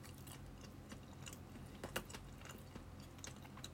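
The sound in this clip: Chewing food while eating a dish with a slight sour taste: faint, irregular soft crunches and moist clicks recur throughout, with no talk.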